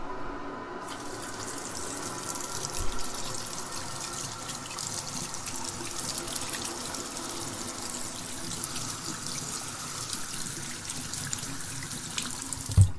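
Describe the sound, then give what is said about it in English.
Water runs steadily from a tap while hands are washed under it: a continuous soft hiss and splash, fairly quiet and even throughout, with a couple of small knocks. “Oh, let's wash our hands.”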